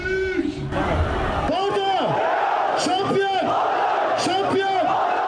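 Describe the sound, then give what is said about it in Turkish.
Football fans in the streets of Erzurum and Hatay celebrate their clubs' promotion to the Süper Lig. A loud crowd roar carries repeated rising-and-falling shouted chants, with a brief burst of harsh noise early on. “Her iki şehirde de caddeler, sokaklar sevinçli taraftarlarla doldu.”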